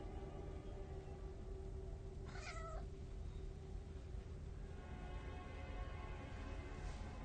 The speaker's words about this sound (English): sees a cat move from behind a coffee table.